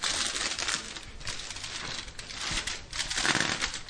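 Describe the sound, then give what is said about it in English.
Aluminium foil wrapped around cooked food is unfolded from one side, giving a steady, bright crinkling and rustling that runs throughout without a break or voices. “so it's really easy to unfold the foil.”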